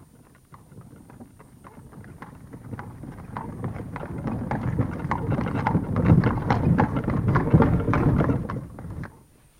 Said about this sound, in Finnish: Palvelijanne saa tilata meille katetut vaunut. Tilaa vaunut,